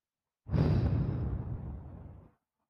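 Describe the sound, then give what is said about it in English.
A single deep breath exhaled out through the mouth during a guided breathing exercise, a long airy whoosh that begins strongly and gradually tapers off to silence. “Deep breath in. Hold it. Out through the mouth.”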